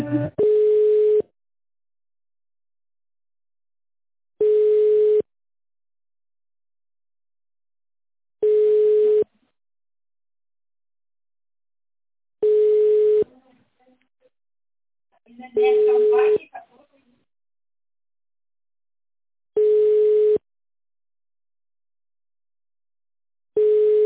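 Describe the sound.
Telephone ringback tone while a call is being transferred to another department: a low, steady tone in evenly spaced long beeps about every four seconds, with silence between them.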